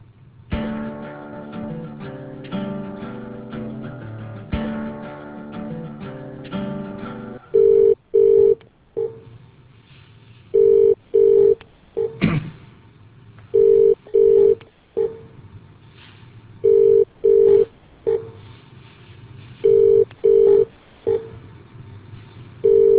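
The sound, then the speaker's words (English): Telephone ringback while a call is transferred to another line: a stretch of held musical tones gives way to about five double-pulse rings in a steady rhythm, separated by quiet gaps. “Just one moment, I'll try his line for you.”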